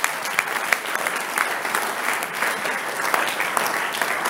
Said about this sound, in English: I say there's nothing wrong for pastors to clap. It's part of the demonstration of your humility.